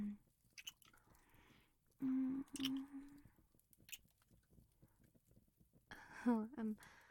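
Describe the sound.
Wet kissing sounds with soft smacks and slurping mouth noises, broken by brief hummed vocal sounds at the start, middle and end.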